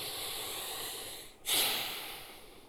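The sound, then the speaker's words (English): A deep breath drawn in during a group breathing moment at a Christmas church gathering, heard as one faint, airy rush of inhaled air over a quiet background hiss. “Let's all get a big breath.”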